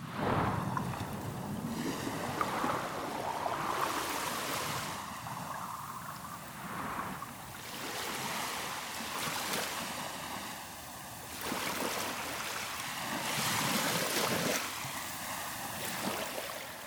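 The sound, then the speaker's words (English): Waves on a North Sea beach at Blyth on the Northumberland coast, with broad washing surges that rise and fade every few seconds over a steady low rumble. “After a day working in my studio, I often come out here to the beach at Blyth on the Northumberland coast.”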